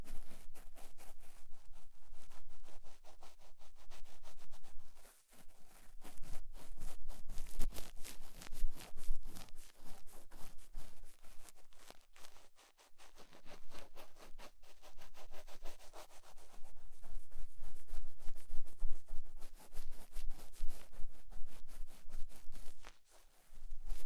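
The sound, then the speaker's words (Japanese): Steady rubbing and scratching of an ear-cleaning ASMR session: dense, continuous scraping strokes, loud and close, broken by a couple of brief pauses. “ちょい下の方を掃除していくね。”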